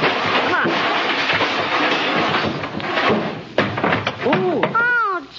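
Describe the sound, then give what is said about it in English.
A coin-operated tintype photo machine is kicked and busted open: a noisy stretch of banging and rattling, then a few loud slams and knocks, with voices talking toward the end. “what's the idea of busting open this tin-type machine like that”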